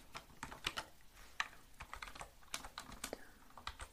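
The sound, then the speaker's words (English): Computer keyboard typing: many rapid, crisp key clicks in an uneven rhythm, with a few louder strikes among them. The typing is heard alone, with no talking. “So let me type it up.”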